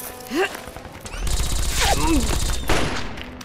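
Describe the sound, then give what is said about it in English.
Gunfire from inside a house during a shootout: sharp shots burst out, followed by a loud, sustained roar of rapid firing, with shouting voices and whistling tones over it. “He's shooting back! Open fire! He's firing from inside the house.”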